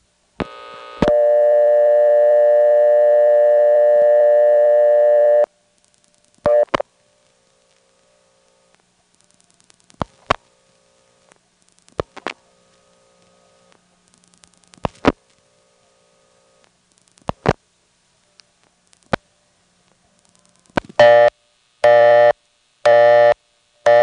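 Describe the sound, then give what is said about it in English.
A local Windsor telephone exchange gives its busy signal after a payphone's number is dialed: a long steady tone, then scattered clicks on the line, and finally a few rapid on-off bursts of busy tone. “Let's hear the local Windsor busy signal by dialing the number of the payphone.”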